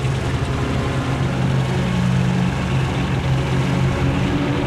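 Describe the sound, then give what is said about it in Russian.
Tank engine running: a continuous, heavy low-pitched rumble with a droning hum, holding at a steady, loud level throughout. “Танк заводит мотор и идет за броневиком.”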